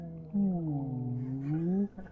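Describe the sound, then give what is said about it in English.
A human voice imitating a whale call, with one long, low, moaning tone that sags slightly and then rises again, held steadily for about a second and a half. “At one point, about 5 minutes in, there's this huge whale. Just kind of slowly goes by.”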